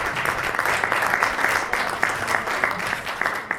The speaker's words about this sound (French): et ça s'applaudit aussi parce que c'est très bien.